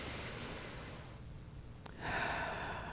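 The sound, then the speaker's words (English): A slow deep breath drawn in during a guided breathing moment, a soft airy hiss that swells and grows louder partway through, quiet and unaccompanied by talk. “Let's take a deep breath. And another, breathe in.”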